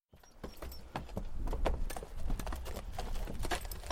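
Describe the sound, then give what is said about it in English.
A horse's hooves clip-clop steadily as it pulls a buggy along a road, a continuous rhythmic patter over a low rolling rumble. “the Bartzes climbed back into their buggy and started for home. As they rode”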